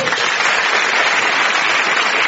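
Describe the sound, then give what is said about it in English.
Audience applause for two comedians introduced on a comedy show, a loud, dense and steady round of clapping that continues without a break and with no voices over it. “So a promising round of applause then for John and Sarah.”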